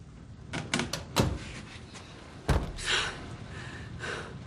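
A bathroom door being shut and locked: a few sharp wooden knocks and clunks, including a firm thud midway, followed by a soft rattling slide, all fairly faint with no talking.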